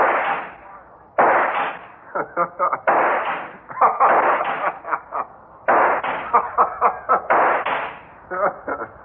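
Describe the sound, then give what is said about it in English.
Gunshots fired at a robot: many sharp cracking bursts with decaying tails across the whole clip, some longer and louder, others short and clipped in quick succession. “I hit you with every shot.”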